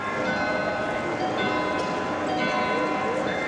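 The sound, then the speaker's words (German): Carillon bells chime at Munich's neo-Gothic town hall, a dense, continuous tangle of ringing tones over a busy, noisy background. “Vor der neugotischen Zuckerbäckerfassade des Münchner Rathauses stehen Touristen aus aller Welt und bestaunen das berühmte Glockenspiel.”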